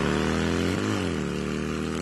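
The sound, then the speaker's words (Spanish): A motorcycle engine, heard in an ad for new motorbikes, runs with a loud, steady, low droning hum. Its pitch dips briefly and then climbs back as the throttle is blipped. “Y arrancá con todo en esta primavera con motos de Casa Orlando Araujo.”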